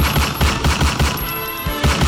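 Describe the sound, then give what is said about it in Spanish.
A gunfire sound effect: rapid, evenly spaced shots in an automatic burst with a punchy low thump to each round, briefly giving way to a ringing tone before the firing resumes. “Un ataque con arma de fuego, un ataque a bala, un ataque a tiros,”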